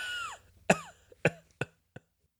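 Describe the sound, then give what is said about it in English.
Snorting from congested sinuses, heard as four short, sharp nasal bursts in a row, each quieter than the last. “I'm hitting the mute button for every snort, but I'm missing a few”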